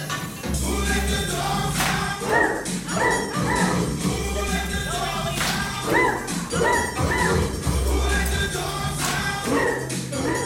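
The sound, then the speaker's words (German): Barking from people in a large hall with drawn red curtains, where about ninety dancers hop to clanging music from huge loudspeakers. Many short barks repeat, half-buried under the loud, steady music. “Um mich herum dezentes Gekicher und Gebell.”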